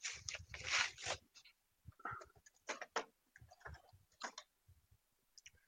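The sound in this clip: Wrapping paper tears and rustles as a present is ripped open, in short crackling bursts of varied length with brief pauses between, quiet overall.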